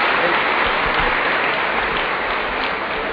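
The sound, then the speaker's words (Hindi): Dense, steady applause from an audience during a bouquet presentation at a gathering, with sustained clapping holding an even, loud level throughout. “सभी जोर से ताली बजाते रहेंगे”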